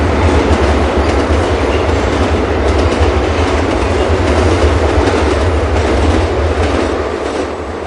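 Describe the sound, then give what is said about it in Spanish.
Subway train passing through a station: a loud continuous rumble with rhythmic wheel clatter, easing slightly at the end. “El suburbano pasa por una estación.”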